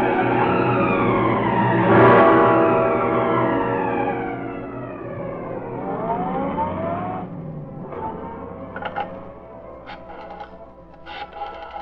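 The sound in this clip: A car drives away from a house, its engine a harmonic whine that slides down in pitch, climbs again briefly, then eases off, ending with a few short sharp clicks.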